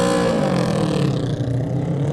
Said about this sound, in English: 52 is next to go on the Cowton Racing bike.